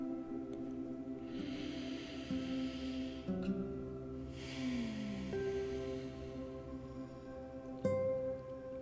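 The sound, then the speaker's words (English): An audible exhale during a guided body-image meditation, heard as a faint, soft, breathy rush of air. It sits alone over quiet, steady low background music, with no talking. “Letting everything go with an audible exhale.”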